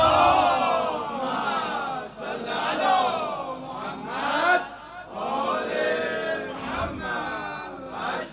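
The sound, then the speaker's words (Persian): A crowd at a religious gathering honoring Imam Ali recites salawat aloud together, many voices chanting in loud unison in swelling, sustained phrases that rise and fall in waves. “هرچی به مولات ارادت داری بلند صلوات بفرست”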